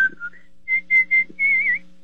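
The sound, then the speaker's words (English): A person whistles a short tune of a few clear, bright notes, with brief separate tones and a longer wavering note at the end, alone with no talk. “No, I whistle. Could you give me a little demo?”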